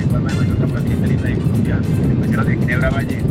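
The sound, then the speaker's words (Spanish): Airplane engine noise roars low and constant beneath a person talking over a phone line, the engine rumble filling the background throughout. “Quítese de ahí el lado del motor del avión y verá.”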